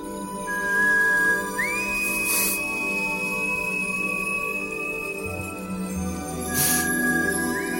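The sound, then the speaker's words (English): An alien creature's whistle for calling its family, as film sound: a sustained high tone that glides upward and then holds steady, returning near the end, over a dense low droning bed with a couple of hissy swells. “Mac is like sort of missing his family, he does this whistle thing. Yes. Which he basically can communicate with his family wherever they are by a whistle, which sounds like this.”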